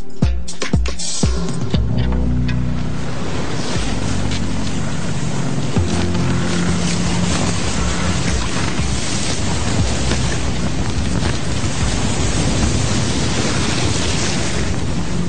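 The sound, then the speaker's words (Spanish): Wind and waves around a sailing ship at sea in the South Atlantic Ocean make a loud, steady rushing roar, with a few low thumps in the first two seconds, then an unbroken wash of water and wind noise. “Para cerrar esta edición de Vida en el Planeta, les invito a subir a bordo del barco Tara, un velero que navegó por las aguas del Océano Atlántico Sur durante 2 años”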